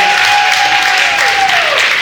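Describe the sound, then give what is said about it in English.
Audience applause at a live quiz event, dense and steady clapping that holds at a high level from start to finish. “Can we get a round of applause for our lovely”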